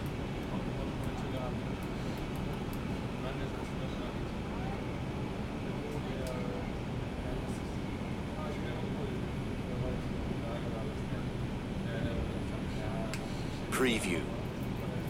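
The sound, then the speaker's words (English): A Bowling Green 5 Express subway train rumbles on, a constant low roar of wheels and motors that holds steady for the whole stretch. “This is a Bowling Green Metro 5 Express train. The next stop is Wall Street. Stand clear of the closing doors”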